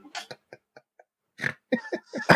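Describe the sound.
A short nasal snort with a pig-like, grunting quality stands out among a few scattered vocal bursts as people talk.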